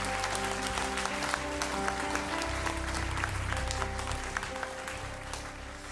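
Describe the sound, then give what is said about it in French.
Congregation applauding during a church worship service: dense, steady clapping runs through the whole stretch at an even level, with sustained low tones held underneath. “Est-ce qu'on peut acclamer notre Seigneur Est-ce qu'on peut acclamer qui il est”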